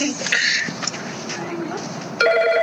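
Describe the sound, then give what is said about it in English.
A telephone rings in the background: a steady electronic tone with bright, stacked harmonics cuts in near the end over a low, continuous background murmur. “Sorry about the phone in the background, guys.”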